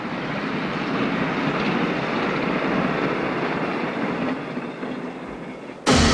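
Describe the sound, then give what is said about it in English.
A train heads across a lifeless landscape, a steady, broad rumble of rolling wheels that slowly eases down in loudness. “His train grows smaller as it heads across the lifeless landscape.”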